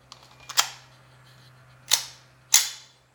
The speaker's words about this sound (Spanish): poner uno de estos taquetitos en el cargador para simular la acción de un cartucho. Ahí está. Vamos a cargar el arma.